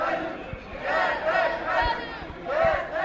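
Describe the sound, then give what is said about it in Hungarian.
A crowd marching along a street and turning onto a boulevard, voices massing in a few rhythmic chanting swells with scattered low thuds between them. “Ferenc István utcába kanyarodik ki a tömeg a Múzeum körútra.”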